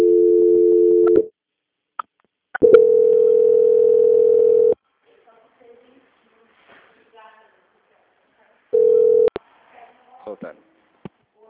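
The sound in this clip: Steady telephone line tone during a call transfer to a bank's quality-control team. It comes in three bursts: a medium one, a longer one, then a short one, with faint brief voice fragments in the quiet gaps between.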